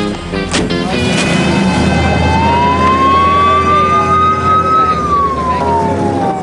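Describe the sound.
Police car siren wailing at an arrest scene as officers lead a suspect to a squad car, its tone rising slowly then falling, heard over loud, dense background noise.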